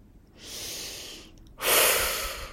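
A deep breath: a long, steady inhale that is briefly held and then released in a louder, rushing exhale. No one speaks over it.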